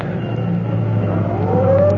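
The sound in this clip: A fire engine's siren begins to wind up over a low engine drone, its tone sliding steadily higher in pitch toward the end of the brief clip.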